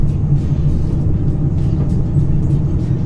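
Steady low rumble of a car driving slowly, around 30 to 40 km/h, along small country roads. A continuous engine and road drone holds at an even level throughout with no pauses and no voices.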